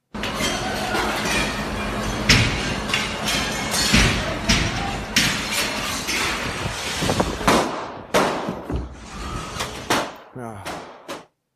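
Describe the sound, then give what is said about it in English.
Sharp bangs of gunfire in a recorded attack video where people were shot, with people fleeing, repeating many times over a dense, continuous clatter and scuffling noise, then thinning out toward the end. “You don't hear the people screaming. Just gunshots and the sound of people trying to escape.”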